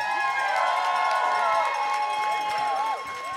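An audience cheers and whoops to vote for a team after a round of a live competition. The loud, sustained cheering drops off after about three seconds.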